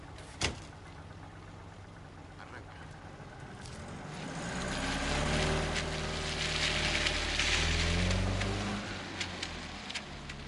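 A car starts and drives off. One sharp knock comes early, then the engine swells into a fuller, faint rumble that keeps running to the end.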